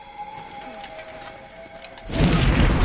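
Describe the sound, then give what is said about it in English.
An animated fire-bending blast of flames: a faint, quiet background with thin tones, then a loud, low, roaring whoosh bursts in after about two seconds and keeps rumbling. “Zhao emerges from the passageway, bends fire, and shoots flames down at them.”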